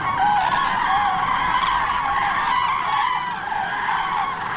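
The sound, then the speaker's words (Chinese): Common cranes, parents with their young, landing in a farm field, giving loud honking, trumpeting calls over a steady rushing noise that continues throughout. “在灰鹤父母的护送下，幼鸟降落到了农田里。”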